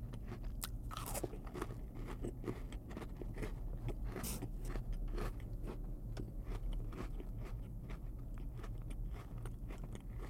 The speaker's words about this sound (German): Und deswegen jetzt mal so einen Nutella-Keks.